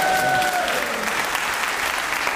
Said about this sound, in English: because you applauded and she kept going through the applause